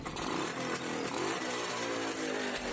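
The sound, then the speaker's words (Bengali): A motorcycle engine runs in a loud, raspy, steady drone with no clear rise or fall in pitch, heard alone without any talking. “Motor bike আগেই এসে গেছে বাসের মাথায় কেষ্টদা দেরি না করে বাইকে চড়ে বসল”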